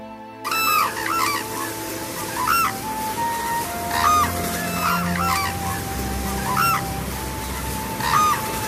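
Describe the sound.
The giant mythical bird Roc cries out in a series of loud, goose-like honking calls at fairly even intervals, over a low, rumbling background.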